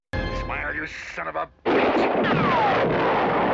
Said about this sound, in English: Chief Brody used this gem of a rifle to finally take out that bastard.